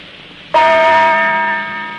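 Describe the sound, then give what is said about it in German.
One strike of a German radio time-signal gong marking the hour: a sudden, loud metallic onset followed by a long, bright ringing tone that fades slowly. “Die Zeit mit dem Gongschlag 20 Uhr und eine Minute.”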